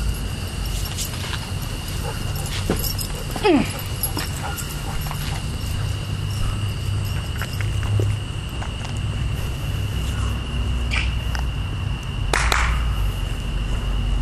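Dogs run and leap up porch steps, making scattered paw thuds and scrabbling against steady outdoor hiss, with a couple of sharper hits standing out.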